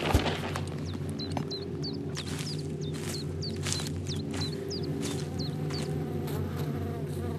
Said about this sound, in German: Schau mal, all die Bienen. Komm, wir suchen das Nest.